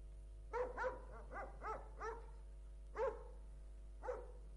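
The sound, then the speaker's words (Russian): A dog barks seven times in short, yappy bursts over a phone call, with uneven pauses between them; the barks are faint against a steady low hum. “Собаку убери, ты что, ебанутая?”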